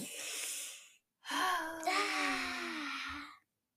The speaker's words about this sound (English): Ready? Breathe in.